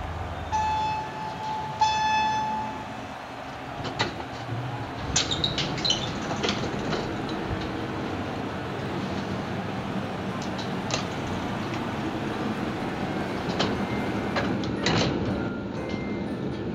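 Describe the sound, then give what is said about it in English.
Elevator sound effect from a fictional nanotechnology elevator: two short electronic chime tones open it, followed by a long, steady mechanical rumble with scattered clicks and knocks, no voices. “As it happens, this is a special fictional elevator put out by the OR&R Department of Nanotechnology.”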